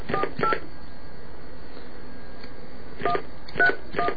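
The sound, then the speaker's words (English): Telephone keypad tones beep as a number is dialed: two short tones, a long pause, then a few more, faint over a low steady hiss. “It's not easy reading and dialing, folks.”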